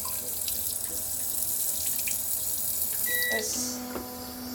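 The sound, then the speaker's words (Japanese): Water spraying from an electronic bidet toilet washlet makes a steady hiss throughout. A few short electronic beeps and tones sound near the end. “ちょっとじゃあもうウォシュレットしちゃいます。”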